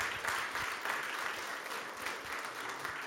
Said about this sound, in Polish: Prosimy o wręczenie nagrody państwa. O wielkie brawa.